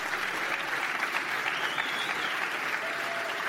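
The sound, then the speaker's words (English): An audience applauds Gavin Newsom with dense, steady clapping that stays loud and even throughout, with no voices rising above it. “Let's hear it. Let's hear it for Gavin Newsom.”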